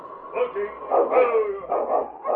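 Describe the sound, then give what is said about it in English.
Sled dog team barking and yipping: a few rough, overlapping barks in an uneven rhythm at moderate loudness. “look, a dog team.”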